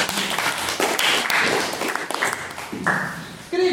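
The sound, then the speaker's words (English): Audience applause fills a formal debate after a maiden speech, a dense, steady clatter of clapping that continues for a few seconds before talk begins. “can we give Stephen another round of applause for his maiden speech?”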